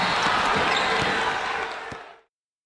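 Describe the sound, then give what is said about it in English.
A basketball bounces on the court during a game, a few dull thuds set in a steady wash of noise that fades out after about two seconds. “They're playing basketball. He shoots. He scores.”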